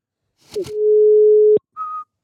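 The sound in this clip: A telephone dial tone while a call is placed: a couple of sharp clicks, then a steady mid-pitched tone held for about a second, cut off by another click and followed by a brief, higher beep.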